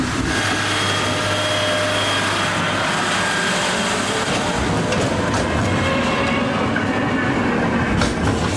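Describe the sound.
A work train moves along a track on a rail construction site, a loud, continuous rumble with clattering wheels on rails and some engine hum, with no voices.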